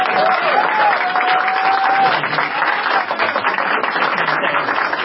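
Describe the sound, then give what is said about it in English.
Loud, sustained applause from an audience asked to stand for a speaker, dense continuous clapping with no break for the full five seconds. “Ladies and gentlemen, if I may request as a personal favor. Take it now. Please stand and give this man the applause that he deserves.”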